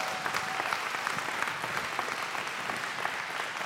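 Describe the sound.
A church audience applauds to welcome a speaker to the front, with soft, even clapping throughout and no clear peaks or breaks.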